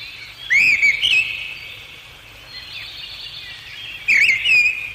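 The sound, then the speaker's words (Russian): A European robin sings at sunset from the top of a spruce, giving two short bursts of bright, high whistled warbling separated by a few seconds, over a steady high-pitched background hiss. “А теперь мы попросим Зарянку перевести ее песенку с птичьего языка на наш, человеческий.”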